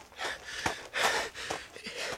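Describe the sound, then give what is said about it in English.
A man panting, out of breath after running to the garden tomb: a quick, uneven run of gasping breaths, fairly loud and with no other sound. “John and Peter, their hearts pounding, ran all the way to the garden tomb. John got there first, out of breath, and looked inside.”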